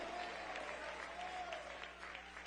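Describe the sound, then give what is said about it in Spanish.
A church audience applauds with steady, continuous clapping that stays faint and even for the whole stretch. “Dele ese aplauso de gloria al Cristo resucitado.”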